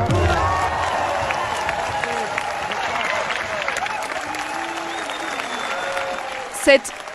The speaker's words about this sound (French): Des cris de joie et des applaudissements pour célébrer l'adoption hier par le Parlement